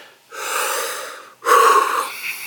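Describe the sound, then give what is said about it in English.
One deep breath, drawn during a church service: a long, airy inhale of about a second, a brief pause, then a louder, breathy exhale, heard alone without talk. “So I'll take a deep breath.”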